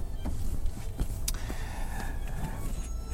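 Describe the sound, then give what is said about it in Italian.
Interior car noise recorded on a Tascam recorder: a steady low rumble of engine and road fills the cabin, with a few faint clicks and ticks on top and no voices. “e questa è la prima registrazione che faccio con il Tascam dalla macchina, che non è più la 600 di cui si parla anche nella descrizione del podcast”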